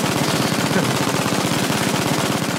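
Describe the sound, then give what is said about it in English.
MG-42 machine gun firing a sustained burst, its extremely rapid shots blurring into one harsh, loud ripping roar that holds steady for the whole stretch. “Perhaps the most celebrated machine gun of all time. Kelly? MG-42.”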